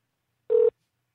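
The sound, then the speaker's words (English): A telephone dialing tone: one short, steady beep lasting about a fifth of a second, alone against silence. “Come on, I'm going to dial him in.”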